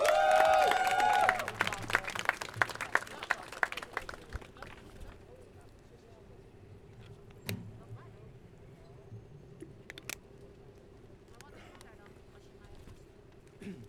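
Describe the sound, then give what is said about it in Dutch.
A crowd applauds a speaker at a February Strike commemoration. Loud, dense clapping fills the first few seconds, then fades into quieter scattered claps and a few isolated knocks. “Ik wil hem graag de microfoon geven. Geef hem een groot applaus!”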